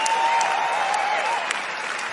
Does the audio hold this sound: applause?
yes